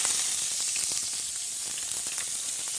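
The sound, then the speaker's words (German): Ordinary vegetable oil sizzling in a very hot pot: a steady, bright hiss with scattered crackles and pops running the whole time, no voices. “Aber ich kann ja jetzt schon mal zumindest das Öl in den Topf erhitzen. Nimmst du da Olivenöl oder was für Öl nimmst du da? Der Topf ist ziemlich heiß. Ich nehme ganz normales Pflanzenöl.”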